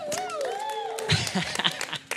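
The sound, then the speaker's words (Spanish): An audience bursts into applause, with scattered claps and crowd noise building partway through. The clapping is mixed with a talking voice and comes in uneven bursts toward the end. “Gracias, Byron. Un aplauso a Byron.”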